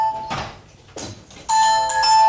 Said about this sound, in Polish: Ktoś dzwoni, odbierzesz?